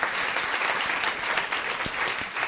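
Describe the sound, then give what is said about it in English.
Audience clapping in a room in New York, answering a show-of-hands question about voting in the 2010 midterm election; a sustained, dense burst of applause at an even level from start to finish. “Clap if you voted in the 2010 midterm election,”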